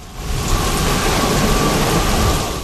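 Rain and thunder together: a dense, steady hiss of heavy rainfall over a deep, continuous low rumble, loud throughout with no break.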